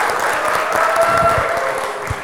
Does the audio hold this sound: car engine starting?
no